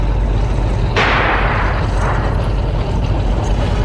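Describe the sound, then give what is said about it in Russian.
A single loud anti-tank rifle shot fired at tanks in a wartime trench fight: one sharp burst, then a decaying rumble over constant background noise. “Это наши стреляли из ПТР от Смирнова!”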